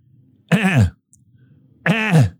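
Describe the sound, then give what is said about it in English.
A voice imitates a siren whoop twice: two short, strained vocal bursts with sweeping pitch, separated by a pause of about a second. “Whoop. That's as high as I can. That's my siren. It should be going off.”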